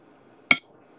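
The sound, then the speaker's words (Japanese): An egg is cracked and dropped into a dish: a faint tick, then one sharp, bright clink, brief and alone in an otherwise quiet moment. “あ、ちょうど真ん中に卵を落とすことができませんでした。”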